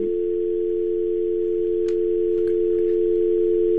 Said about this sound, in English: we're hearing the dial tone over the air